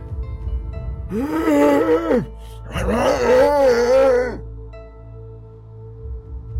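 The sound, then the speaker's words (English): Eerie moaning from a dark pit beneath a floor hatch: two long, loud, wavering wails with a short gap between them, then fading to a low, faint rumble. “The moaning grows louder as the old man removes a steel pin holding an imposing-looking latch shut on the floor hatch.”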